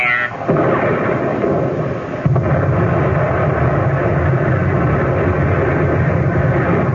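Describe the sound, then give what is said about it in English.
Naval gunfire pours shells into enemy transport ships at sea: a dense, continuous, loud roaring rumble with no pauses and a fresh sharp blast partway through. “Keep pumping shells into them. Continue”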